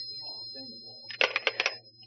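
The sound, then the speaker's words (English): A telephone rings in a brief, faint burst of rapid rattling pulses lasting about half a second, after a quiet stretch. “Oh, I didn't realize it was my phone first.”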